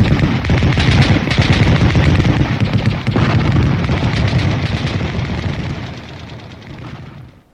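Dense gunfire in a radio drama as soldiers are ordered to fire at a solid metal machine rising on legs: a loud, continuous barrage of rapid shots and booms that thins out and fades over the last second or so.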